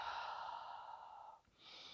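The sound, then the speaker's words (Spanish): Deep breathing during a guided relaxation exercise: a long, slow, airy breath, a brief pause, then another deep breath begins, quiet and without talk. “Voy a hacer respiraciones. Me vas a escuchar de vez en cuando respirar profundamente.”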